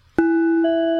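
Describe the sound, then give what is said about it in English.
A chime rings out to mark a change of topic: one bright struck tone with a sustained ringing hum, then a second pitch joins and rings on together with it. “Oh, that's the sound of the chimes, and that means moving on to the next topic in the TWAB.”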